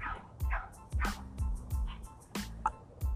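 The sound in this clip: Dogs barking: a handful of short, sharp barks and yips come in an irregular string, each one a quick bright burst with gaps of quieter background between them.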